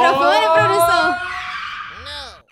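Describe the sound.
A Formula 1 race car sound effect: a loud, high engine scream rich in stacked harmonics, its pitch wavering and sliding, with a brief arching whine late on before it cuts off abruptly.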